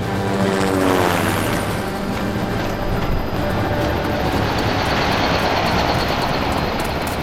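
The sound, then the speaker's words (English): An approaching aircraft produces a loud, continuous roaring engine rumble with a thin high whine layered on top. It stays steady throughout with no voices. “This must be it. That aircraft is North Island EOS.”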